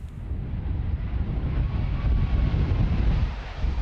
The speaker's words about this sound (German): Eine Boeing 777 der Air New Zealand landet am Flughafen von Auckland, wie auf Aufnahmen der Nachrichtenagentur Reuters zu sehen ist.